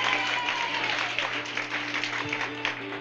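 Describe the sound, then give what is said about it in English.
Crowd applause for a bass fiddle player introduced on stage alongside guitar, banjo and fiddle players, steady clapping throughout with a low sustained tone running underneath. “Let's give Doug a hand.”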